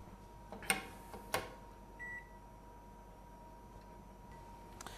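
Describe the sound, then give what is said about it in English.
An oven being set to preheat: two sharp clicks, then a single short electronic beep, all faint over a low, steady background hum. “Let's preheat the oven now.”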